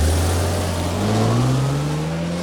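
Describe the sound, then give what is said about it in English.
A BMW car drives away from a house, its engine a steady low hum that climbs gradually in pitch as it accelerates, holding an even loudness throughout with no voices. “Michael drives away from the house in the BMW”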